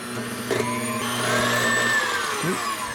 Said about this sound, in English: And we're gonna whisk this.